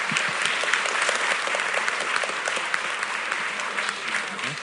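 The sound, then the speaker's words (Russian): Group applause during a circle session: many hands clapping in a dense, continuous patter that holds at a steady, fairly loud level for the whole stretch. “Похлопаем.”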